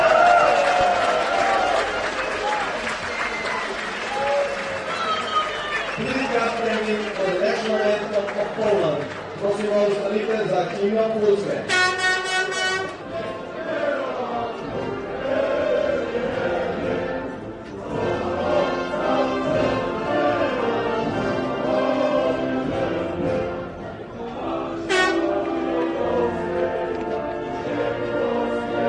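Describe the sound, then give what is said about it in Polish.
A large crowd of Polish fans in the stadium at the speedway Grand Prix in Krško, Slovenia, sings and chants loudly and continuously, with voices swelling and overlapping. “Jak słychać gdzieś tam w tle, kibiców z Polski wcale na tym stadionie nie brakowało.”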